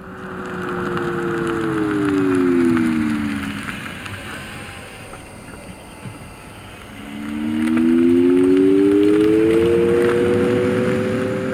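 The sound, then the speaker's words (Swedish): An electric vehicle with an added tonal warning sound gives a steady, humming tone that glides down in pitch over a few seconds, drops away, then returns and climbs in pitch over a low rush of road noise. “Ett annat exempel där vi då har lagt på ett ljud, i det här fallet ett tonalt koncept.”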